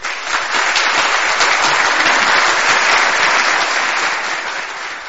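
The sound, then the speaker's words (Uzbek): A theatre audience applauds after an Uzbek actor's stage monologue. The clapping is loud, dense and sustained, with no break, and tapers slightly at the close. “Albatta, aktyor uchun eng oliy mukofot bu el yurtni olqishi, qarsaklar.”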